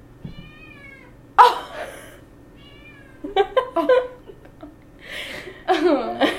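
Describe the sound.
A newly adopted female cat meows twice in drawn-out, wavering cries, and laughter and chatter from people follow.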